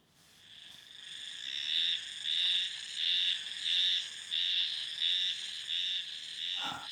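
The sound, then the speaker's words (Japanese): Spring cicada calling: a loud, buzzy, rhythmic song of evenly spaced throbbing pulses that builds up at the start, with a croaking, frog-like quality, with no voices over it. “次にハルゼミ、”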